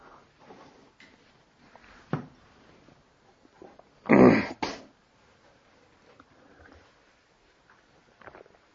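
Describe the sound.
A lecturer clears their throat in two quick, harsh bursts that stand out loudly against the quiet background.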